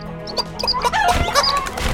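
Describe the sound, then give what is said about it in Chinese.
Chicken-like clucking and squawking from a flock of birds that suddenly fly off in a comedy audio drama: several quick, overlapping fowl calls, loud and busy throughout, with no voices. “哎，你们做了什么？怎么突然所有鸟类都乖乖飞走了？”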